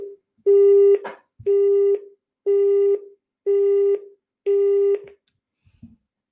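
A telephone signal tone sounds as five evenly spaced, identical beeps of steady pitch, each about half a second long, loud and clear with no talk, followed by a faint click.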